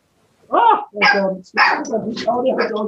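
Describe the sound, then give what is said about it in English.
Dogs bark in a burst of four sharp, yelping barks in quick succession, loud and close together, with brief gaps between them. “I woke the dogs up.”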